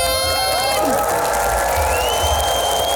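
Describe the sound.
Crowd applause and cheering for Queen Máxima opening the 50th-anniversary North Sea Jazz festival: a steady roar of clapping and shouting voices with high whistle-like tones running through all three seconds.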